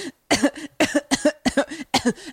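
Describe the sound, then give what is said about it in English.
Deliberate coughing by a man: a rapid series of short, rough, partly voiced bursts with brief gaps between them, fairly loud and alone. “Too many coughs. The first time I've ever purposely coughed.”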